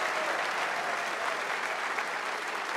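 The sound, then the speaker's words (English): Audience applause welcomes guest Billy Gibbons on stage, a dense, continuous wash of clapping that stays loud and even from start to finish. “Put those hands together. Make welcome a dear friend of mine, Mr. Billy Gibbons.”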